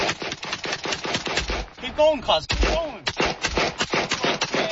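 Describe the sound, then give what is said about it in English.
Gunfire from an AK-47 rifle on a city street: many rapid, loud shots in sustained bursts, with voices briefly heard partway through. “So while they're firing the shots, they're laughing.”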